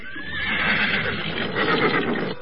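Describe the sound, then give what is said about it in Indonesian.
A horse neighs in a long, loud whinny, its high tone quavering and trembling throughout without a break. “Uthbah bin Al-Zam'ah berlari keluar dan langsung menuju ke kandang kudanya. Dengan cepat dia memacu kudanya meninggalkan rumahnya.”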